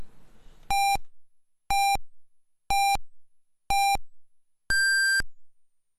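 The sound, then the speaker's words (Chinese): Radio hourly time signal: four short, identical beeps spaced about a second apart, then a fifth, longer beep at a noticeably higher pitch. “很快是整点报时”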